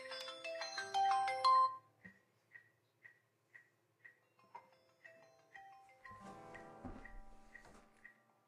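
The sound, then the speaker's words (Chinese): A WeChat voice call ringtone: a short melodic chime, then a steady run of brief high beeps repeating about twice a second, with other faint noises joining toward the end. “我现在把那个微信语音再打开一下”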